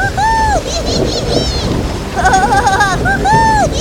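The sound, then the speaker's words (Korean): A storm at sea with rain and crashing waves makes a loud, continuous roar, a dense wash of noise that surges and ebbs throughout without pause. “배는 몇 시간을 떠다니다가 폭풍우를 만나게 되었어요. 파도는 강력하고 무시무시했죠.”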